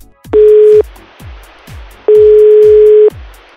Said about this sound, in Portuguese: vamos ligar pra cunhada e a gente pergunta pela Maristela.